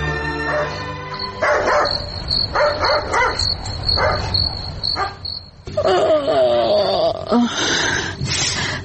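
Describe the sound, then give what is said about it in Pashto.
A dog barking at night: a run of many sharp barks, loud and repeated in uneven bursts, over a constant high chirping of crickets. “زو ګورم چې دا سپی ولې غاپي. داسې نه وي چې خدای مکړه کور ته غل راغلی وي.”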